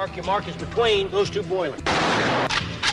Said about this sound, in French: Live gun! Et ça mitraille sec sur les ondes de la clé.